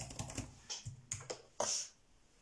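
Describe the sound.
Casual typing on a computer keyboard: an irregular run of many quick, light key clicks with brief pauses, ending in a louder, slightly longer clatter.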